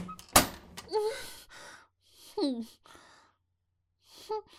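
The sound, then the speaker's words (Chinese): A single heavy thud of a foot kicking a door, a sharp loud impact near the start, followed by a few soft sighing, groaning vocal sounds with no words. “快开门，再不开我就用踢的了。”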